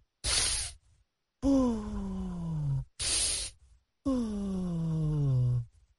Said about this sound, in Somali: aan kulligeen wada samayno neef qaadasho iyo neef sii dayn